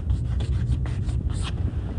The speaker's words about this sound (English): And I'm going to write it out because it is rather important, this law.